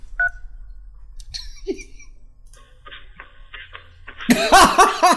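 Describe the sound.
A single short telephone keypad tone sounds as 3 is pressed in an automated phone menu. Quieter scattered noises follow, then a louder burst of sound at the end.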